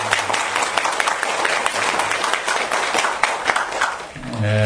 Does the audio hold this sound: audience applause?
yes